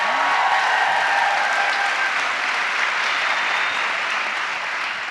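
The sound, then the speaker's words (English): Applause from a Chicago audience at a live evening event, dense and steady clapping that fills the whole stretch without a break and tapers slightly toward the end. “Let's hear it one more time for Earlon and Nigel.”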